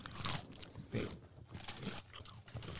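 Repeated crunching and munching of Doritos tortilla chips bitten right up against a microphone, a series of loud, crisp, crackling bites with chewing between them.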